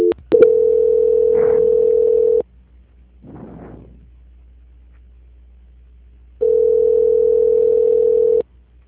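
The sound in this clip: A steady telephone tone plays while a call is being transferred. Two long, loud, even tones last about two seconds each. Between them is a pause with a brief, soft noisy burst.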